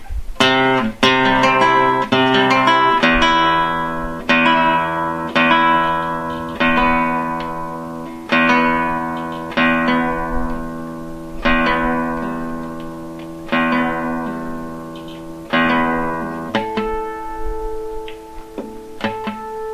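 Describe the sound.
Guitar with a faulty Yamaha string whose fretted notes go flat: plucked open notes, 12th-fret harmonics and fretted notes played one at a time, each ringing out and decaying, with no voices.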